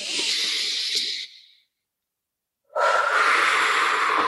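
A deep breath taken during a guided tapping relaxation exercise: a long airy rush of breath that fades out, a silent pause, then a second strong, steady breath.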